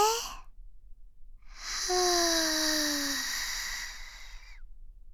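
A long, airy breath is drawn in during a guided breathing exercise, lasting a few seconds with a faint falling whistle-like tone, after a brief breath sound at the very start.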